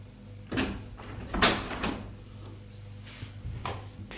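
Knocking on a door, a few dull, irregular thumps spaced apart, fairly faint and with no voices.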